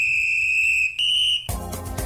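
A whistle-like beep sound effect opens a radio sports segment: one long, steady, high-pitched tone with a brief break, lasting about one and a half seconds before cutting abruptly to a fuller, different sound.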